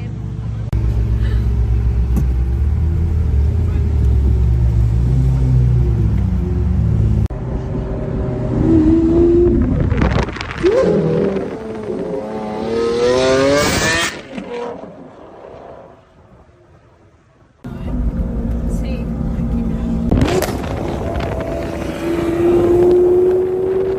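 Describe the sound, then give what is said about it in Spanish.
A Ferrari sports car engine revs loudly, with bursts of climbing pitch over a steady, rumbling idle, while voices talk at times. “Guau, ¿dónde van en el Ferrari vosotras?”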